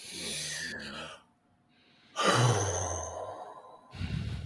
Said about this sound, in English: just take a deep breath. You ain't got to do nothing other than just bring the air in and let the air out.